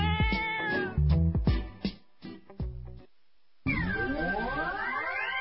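A kitten meows over and over in high, harmonic cries. Short calls come first, then a brief silence, then a longer, drawn-out wail with wavering pitch.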